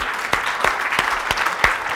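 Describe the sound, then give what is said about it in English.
Audience applause in a continuous noisy wash of hand claps, with a few sharper claps standing out at a fairly regular pace. “And that panic should be rewarded with giving them the clap also.”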